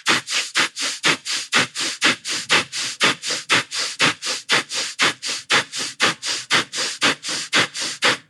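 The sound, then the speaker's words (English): Vigorous breathing in and out through the nose: many sharp, hissing sniff-like breaths in a fast, even rhythm, loud and alone, stopping abruptly at the end. “we're going to vigorously and safely, depending on your level of lung fitness, breathe in and out through our nose. So it looks a little something like this, or sounds a little something like this.”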